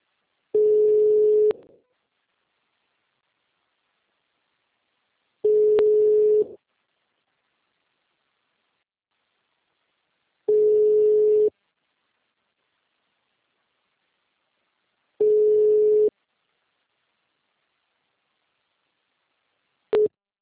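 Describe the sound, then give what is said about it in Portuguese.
A telephone call tone plays while the line waits to start ringing: a steady mid-pitched tone lasting about a second, repeating at even intervals of roughly five seconds with silence between, four full tones and the start of a fifth. “Ah, agora foi. Ele tá demorando pra começar a chamar”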